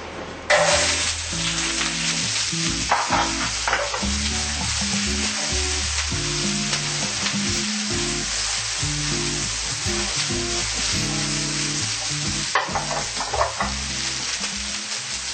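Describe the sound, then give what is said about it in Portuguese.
Onion frying in olive oil in a hot pan gives a bright, continuous sizzle that stays loud and steady throughout, with no talking. “Com a panela bem quente, nós vamos colocar o azeite de oliva e logo vamos colocar a cebola.”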